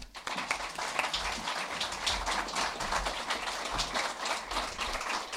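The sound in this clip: Audience applause welcomes an author onto the stage at a book talk in Seattle, with dense, steady clapping that holds at an even level for about five seconds.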